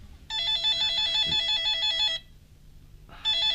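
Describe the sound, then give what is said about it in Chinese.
A desk telephone bell rings in an office: a bright, rapidly trilling ring sounds for about two seconds, stops for a short gap, then starts ringing again. “突然办公桌上的电话铃响”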